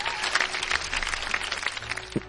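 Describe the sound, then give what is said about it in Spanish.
Applause for two listeners during a call-in show: a steady patter of clapping from several hands, dense and continuous at moderate loudness, with no voices over it. “Un aplauso para Albetolas y para su amiga, a Lely.”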